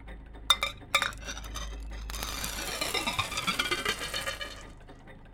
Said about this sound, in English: Tim says I don't have to eat the guest reader marbles, but just put them back in the machine again instead.